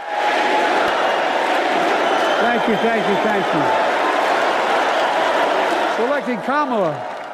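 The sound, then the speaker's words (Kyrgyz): A political convention crowd cheers and applauds as Biden takes the stage. A loud, continuous roar of clapping and voices is broken by repeated shouted chants that rise and fall above the din. “Сахнага чыккан Байденди чогулгандар алкыш айтып тосуп алышты.”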